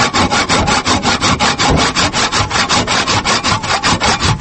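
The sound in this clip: A hand saw cuts through wood branches in many quick, regular back-and-forth strokes, a loud, raspy rhythm of about four strokes per second that keeps up steadily throughout, with no talking.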